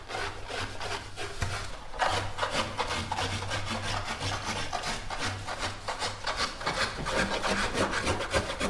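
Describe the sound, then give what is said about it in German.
Raw wood for violin backs and tops being hand-scraped and rasped in a Cremona workshop, a steady stream of many rapid, gritty rubbing strokes with no pause throughout. “Die Form der Geigenböden und der Geigendecken wird per Hand mit Stemmeisen und Sandpapier und kleinen Kupferhobeln aus dem rohen Holz geschält, geschabt, geraspelt und geschliffen.”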